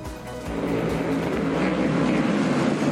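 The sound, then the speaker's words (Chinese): Roaring engines of modified race cars at full throttle during an exhibition race, a loud, sustained drone that swells after the first half-second and holds steady. “改装赛车一辆辆呼啸而过，直线冲刺时猛踩油门加足马力，过弯时则展现细腻技巧。”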